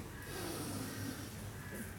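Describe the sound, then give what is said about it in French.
A deep breath drawn in during a guided breathing exercise: a faint, steady, airy hiss lasting about two seconds, with no talking. “Et inspirez.”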